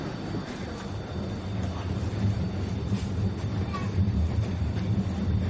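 Steady low rumble of a train travelling toward Italy, heard from inside a passenger carriage: a loud, continuous drone with faint higher rattling and no voices.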